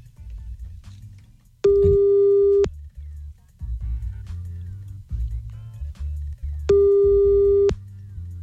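A telephone line tone sounds while someone calls back: two long, steady beeps of about a second each, several seconds apart, over a low background hum.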